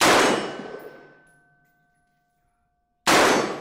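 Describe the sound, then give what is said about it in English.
Gunfire from an AR-15 style rifle on a live firing line: two deafening shots, each a sharp blast with a long ringing decay. The second shot cuts off at the end. “How it fires, what it sounds like. Line is hot. Now, the instructor fired that test round, and the sound is deafening.”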